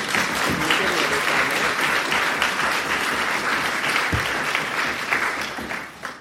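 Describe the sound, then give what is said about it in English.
A crowd at a talk on marriage equality applauds to welcome a speaker: loud, dense clapping from many hands, sustained and even for about six seconds before trailing off at the close. “But if you could please now put your hands together and make April welcome.”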